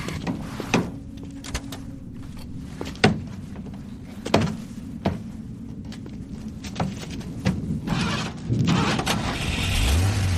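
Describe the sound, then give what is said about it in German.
Parked car being hotwired: many sharp clicks, knocks and rattles at uneven intervals over a steady mechanical murmur, ending in a low rumble. “Angel beobachtete, wie seine Begleiterin das stehende Fahrzeug kurzschloss.”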